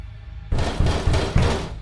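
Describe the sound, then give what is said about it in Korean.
A door shakes violently as if about to break under pounding from outside, with four heavy thumping blows over a loud continuous rattle. “어느덧 문은 부서질 듯 흔들려대고 있었고”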